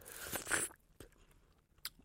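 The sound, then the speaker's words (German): Someone bites into a dark red strawberry: a faint, juicy crunch bursts out, then a few soft chewing clicks follow. “Aber wenn du jetzt in die dunkelrote mal reinbeißt, zum Vergleich.”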